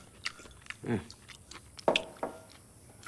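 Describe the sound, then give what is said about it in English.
A man gorging on food at a kitchen table munches noisily: a few faint, crunchy bites and chews separated by short pauses, with no talking. “licks his fingers and carries on munching”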